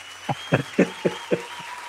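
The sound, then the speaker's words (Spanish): A handful of slow, separate claps, each one a soft, dull burst with short gaps between them. “Ahí están los aplausos.”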